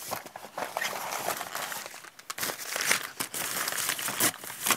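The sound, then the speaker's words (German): A chocolate wrapper crinkles, with many irregular, crackly bursts of rustling packaging that rise and fall continuously throughout, loud and close, with no one talking. “Für diese Momente hat Oma die Schokolade eingepackt.”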